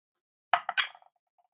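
Dice are rolled for a tabletop role-playing game: a quick clatter of a few sharp clicking hits, then small bounces that fade out, heard alone.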